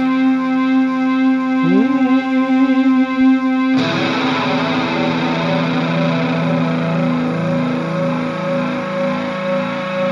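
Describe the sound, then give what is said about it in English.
Feedback from an acoustic-electric guitar played through a tube amp: loud, sustained, distorted tones with a brief upward glide, then a sudden thicker swell of ringing, wavering overtones that holds to the end. “I am digging this feedback, though. So that's something that I discovered today, that if I ever want cool feedback, I'll just play my acoustic electric through my tube amp.”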